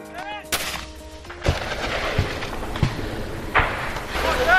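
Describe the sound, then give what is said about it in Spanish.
Gunfire from fighting between Azerbaijani and Armenian forces: several sharp, loud reports break out over a continuous rough rumble, coming at irregular intervals. “Este es el sonido de las acciones militares entre fuerzas de Azerbaiyán y de Armenia.”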